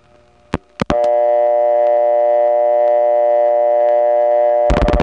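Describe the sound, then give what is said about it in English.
Reorder tone from a step-by-step telephone exchange after dialing a vacant level on a Drake trunk in the Eastlake Central office. A few sharp clicks lead into a loud, steady, buzzy tone lasting about four seconds, then a rapid burst of clicks. “organic and metallic sound of getting a reorder from other number one steps. First, I'm going to call the Drake step in the Eastlake Central office. I'm dialing a vacant level.”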